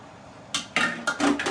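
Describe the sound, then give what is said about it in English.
Food processor parts are tossed into a kitchen sink, producing a few sharp, clattering clanks that start after a quiet moment and come in quick, uneven succession. “That's just me throwing parts of my food processor into the sink.”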